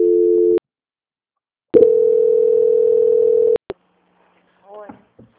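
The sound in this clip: Telephone tones while a call is transferred: a short steady tone, a pause, then a long steady tone cut off by a couple of clicks, followed by faint scattered sounds.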